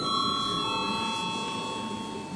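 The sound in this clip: A parliament bell rings steadily to call members to a vote. The tone is unbroken and sustained for the whole stretch, laid over a constant low murmur of background noise.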